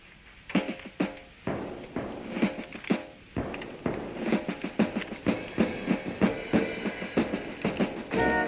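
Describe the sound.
Musical train sound effect with rhythmic chugging beats layered over bright tonal harmonics, the pulses repeating steadily and growing denser toward the end.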